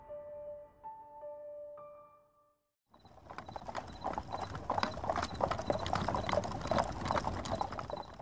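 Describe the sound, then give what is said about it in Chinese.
Hooves clip-clop steadily as a plain horse-drawn carriage arrives and stops outside a gate. A few soft musical notes come first, then a dense run of many rapid, crisp hoof beats continues to the end. “半个时辰后，一辆不起眼的马车停在静安侯门外，大门被敲响。”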